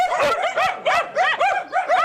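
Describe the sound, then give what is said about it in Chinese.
Many dogs barking and yipping in a quick run of overlapping, high-pitched bursts at moderate loudness, with no talk. “有狗啊。这么多狗。”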